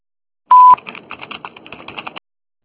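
An answering machine tone sounds as one short, steady beep, followed by a run of soft, irregular clicks and crackles with no voice.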